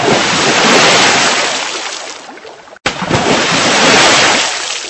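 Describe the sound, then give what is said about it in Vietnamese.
Water splash sound effect of two people falling from a bank into water: loud, steady rushing and spraying noise that breaks off abruptly just past midway, then surges back and continues to the end. “Chân đạp mạnh một cái, hai người từ trên bờ rơi xuống mặt nước.”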